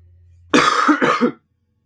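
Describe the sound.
Harsh coughing from someone who caught a cough after sleeping with their head in the rain. A couple of rough, throaty bursts come in quick succession, loud and alone, then stop abruptly.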